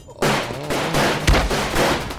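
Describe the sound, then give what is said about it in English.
Gunfire in a firefight aboard a yacht: a dense, loud barrage of overlapping shots, with a heavier low boom partway through, continues without pause for the whole short stretch. “I ducked and slid through the barrage of bullets.”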